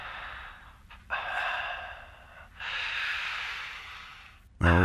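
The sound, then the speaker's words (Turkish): Breathing comes over a phone line from a caller who stays silent, a few long, hissy breaths rising and falling at low level, ending with a short thump. “Nefes sesleri geliyor.”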